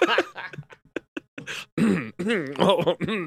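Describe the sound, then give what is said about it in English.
Throat clearing: a run of short, rough guttural bursts, then longer strained, groaning voiced sounds that waver up and down in pitch. “The throat clear heard around the world.”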